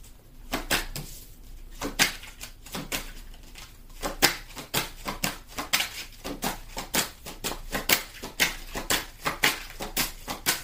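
Tarot cards are shuffled with many rapid, papery taps and snaps in an uneven rhythm that grows denser and more regular as the shuffling goes on.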